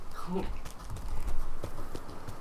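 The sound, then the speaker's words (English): A horse galloping at full speed, its hoofbeats a rapid run of clip-clopping thuds under a speaking voice. “And I suppose we could just use that. She's going to be going at a full gallop.”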